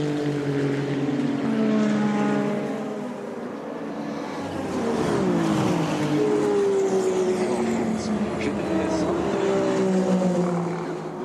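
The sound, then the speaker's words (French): Onboard engine noise from Nyck de Vries's race car while he battles Antonio Giovinazzi. The engine drones loudly and continuously, its pitch dipping and climbing as the revs change. “Quelques instants embarqués avec Nyck de Vries en bataille avec Antonio Giovinazzi.”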